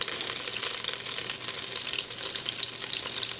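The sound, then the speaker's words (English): Butter sizzles as it melts in a saucepan, a steady, dense crackling hiss that holds at an even level from start to finish with no talk. “Okay, look at our butter has melted.”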